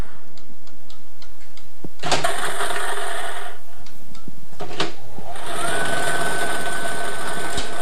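A Multi-X lottery ball drawing machine runs with a loud, continuous mechanical whir and dense rapid ticking of tumbling balls, broken by a few sharper clacks.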